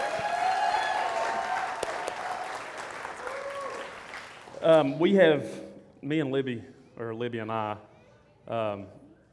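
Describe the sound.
An audience at a church gathering applauds to welcome a preacher, a steady wash of clapping lasting about four seconds that fades away, after which a man begins speaking in separate phrases.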